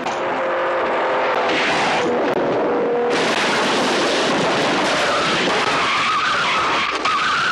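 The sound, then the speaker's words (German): Porsche and Ferrari race cars roar through a chicane, engines howling over screeching, skidding tires in a continuous loud surge that swells abruptly partway through. “Over 3 minutes have passed. We may expect the cars through the chicane any moment now. Will it be Porsche or Ferrari in the lead?”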